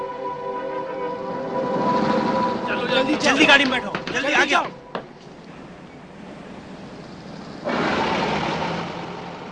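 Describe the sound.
A car engine turns over in rough, uneven bursts of cranking noise, then settles into a steady running hum, while people talk anxiously over it.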